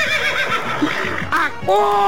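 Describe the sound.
A horse neighs in a loud, short, shaky whinny, heard alongside a voice.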